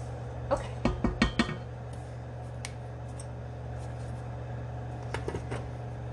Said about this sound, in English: Next, we're gonna heat up our butter because we're stupid and we forgot to heat it up.